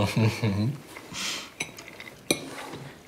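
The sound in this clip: Brief talk gives way to a few sharp, bright clinks of a plate and cutlery, separated by short quiet gaps.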